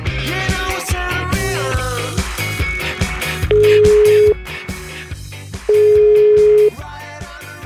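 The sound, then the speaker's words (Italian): Telephone ringback tone heard while a call is being placed: two long, steady, low pitched beeps of about a second each, separated by a pause, over ongoing music. “Vai col telefono.”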